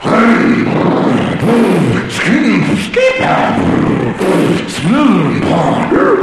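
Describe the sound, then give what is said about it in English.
A voice imitates a go-kart engine warming up with a loud run of throaty, growling revs, each burst swelling up and sinking back in pitch, repeated many times in a rough rhythm. “We're all warming up. I'm warming up my go-kart.”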